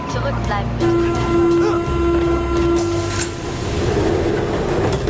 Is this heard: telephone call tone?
no

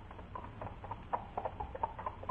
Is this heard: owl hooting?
no

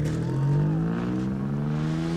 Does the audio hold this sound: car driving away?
yes

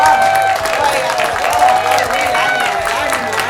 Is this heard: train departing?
no

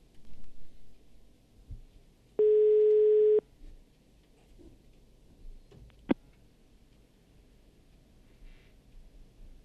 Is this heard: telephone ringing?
yes

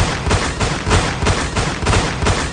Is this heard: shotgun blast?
yes

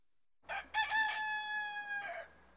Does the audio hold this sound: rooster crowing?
yes

